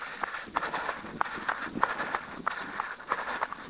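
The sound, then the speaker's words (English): Footsteps of a person running up a hill during an interval workout, a steady, quick rhythm of many soft footfalls at low volume. “really lean and run partway up this hill”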